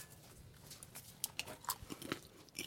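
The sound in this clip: Faint crunching and chewing of popcorn seasoned with chili flakes and parmesan, with many irregular, quick bites and crackles.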